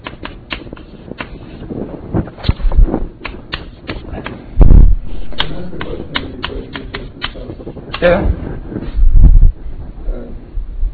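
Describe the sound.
Taps and scrapes of an equation being written on a board during a lecture, with many irregular clicks in quick runs and a couple of louder low thumps; no talking.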